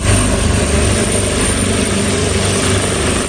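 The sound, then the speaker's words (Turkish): Helicopters take off one after another for a flood rescue in Chile, their engines and rotors making a loud, steady, low roar that holds constant without a break. “Helikopterler peş peşe havalandı.”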